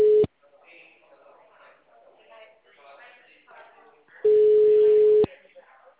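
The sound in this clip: A telephone busy tone after a dropped call: a short steady beep, then muffled voices, then a longer flat tone lasting about a second that cuts off sharply.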